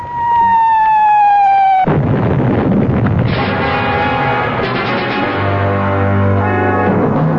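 Wartime bombardment: a loud high whistling tone sinks slightly in pitch, then cuts off into a burst of blast noise followed by continuous rough rumbling and crackle that carries on to the end.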